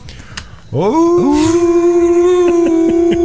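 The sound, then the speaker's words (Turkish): A wolf howl: a loud, drawn-out harmonic cry that swoops sharply upward at the start, then holds a steady, sustained pitch until the end, standing alone without talk. “Kurtlar da geliyor”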